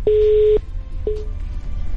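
A telephone line tone after a caller hangs up on a live call-in: a steady electronic beep of about half a second, then a second, much shorter beep, over low line noise.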